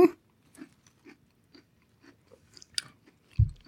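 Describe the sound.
Chewing and biting on a soft chocolate cookie: a sharp bite at the start, then several quiet crunchy chews at a steady, unhurried pace, and a louder, duller munch near the end, with no talk.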